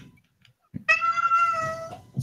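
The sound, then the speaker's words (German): A cat meows at a door, whining to be let in: one long, drawn-out, tonal meow that holds steady for about a second, with a low rumble before and after it. “Steht an der Tür und jammert. Ich grüße an die Katze von mir.”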